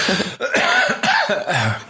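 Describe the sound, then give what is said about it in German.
A few short, harsh coughs from a man speaking German, sharp bursts in quick succession with brief gaps between them, loud and without talk over them. “Kurzer Husten. Wahrscheinlich ist das dein Porridge.”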